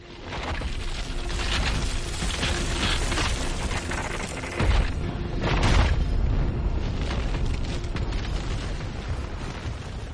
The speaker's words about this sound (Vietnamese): có một tiếng nổ lớn vang vọng ngay trên đỉnh đầu của hắn